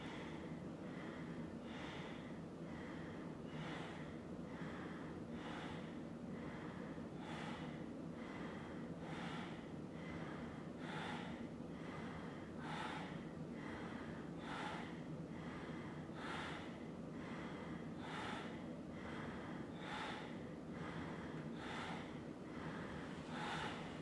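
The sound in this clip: Ujjayi yoga breathing with an even inhale and exhale: many soft, hissing breaths at a steady, unhurried pace, quiet and regular throughout.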